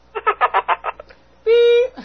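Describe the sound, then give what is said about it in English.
A single censor beep, a flat, buzzy electronic tone lasting under half a second, follows a quick run of speech syllables. “I'll put a censored beep over it or something.”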